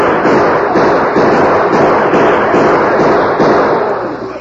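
Gunshots ring out in a radio western drama shootout: a fast, continuous volley of sharp cracks and pops over a dense, hissy roar that stays loud throughout and eases slightly at the end.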